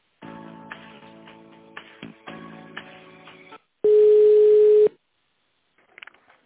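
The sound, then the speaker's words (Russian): Telephone line tones while a call is transferred: about three seconds of buzzy, harmonic ringing tone, a short gap, then one loud, steady, unbroken tone lasting about a second, ending with a few faint clicks. No one talks. “С Александрой Васильевной сейчас соединю.”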